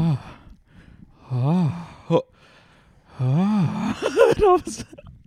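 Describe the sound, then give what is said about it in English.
A voice imitates a man breathing hard and moaning, with a few drawn-out, wavering voiced moans broken by breathy gasps and sighs. “And he just starts, like, breathing really hard, like, moaning.”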